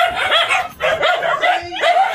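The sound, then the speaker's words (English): Barking and yipping from 164 emaciated dogs crammed into a tiny house in western Japan, a hoarding case: loud, overlapping barks arrive in several clustered bursts with brief gaps between them. “That is the sound of 164 emaciated dogs that have been crammed into a tiny house in western Japan.”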